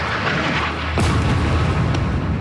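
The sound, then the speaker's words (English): An airstrike explosion hits a mosque and refugee camp in Gaza: one sudden, loud boom bursts out about midway through and rolls into a sustained low rumble over constant background noise. “Israeli airstrikes, like this one on a mosque and refugee camp this week, have continued regularly”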